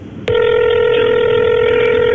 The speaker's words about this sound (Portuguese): E o telefone começa a tocar, tem 5 toques para atender.